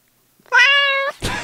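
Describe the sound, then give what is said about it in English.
A fierce cat sound effect: a single long, loud, strongly harmonic yowling meow, cut off and followed by a short burst of rough, noisy sound. “That's fierce. I guess that's a cat. Fierce cat sounds.”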